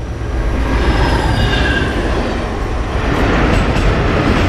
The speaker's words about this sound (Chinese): 现在的 K-521 次列车就是一列奔跑着的炸弹呐。